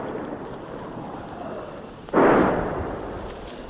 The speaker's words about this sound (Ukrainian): Постійно чути, як працює артилерія.